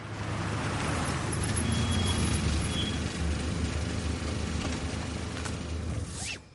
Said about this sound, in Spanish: Más tarde, Walt conduce su coche por el barrio de Jesse.